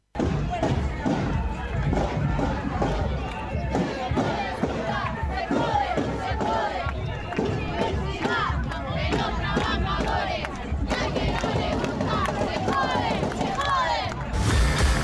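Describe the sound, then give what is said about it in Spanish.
Thousands of marchers in Santa Rosa, La Pampa, chant and shout without pause at a street demonstration defending the public university, a dense, loud roar of many voices throughout. “Las calles hicieron tronar el escarmiento aunque en el palacio no escuchen. Bajo la convicción de que la educación pública no se toca, miles y miles de pampeanos y pampeanas se movilizaron, como en todo el país, para defender a la universidad.”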